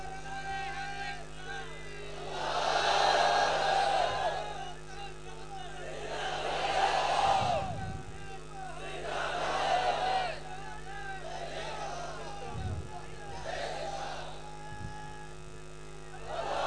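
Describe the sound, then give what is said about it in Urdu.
A large crowd at a massive religious-political gathering chants slogans in loud, recurring waves that swell and fade every few seconds, with a voice leading between the surges. “مجمع اتنا بڑا ہے، نعرے کی آواز لاہور تک تو کم از کم جانی چاہیے”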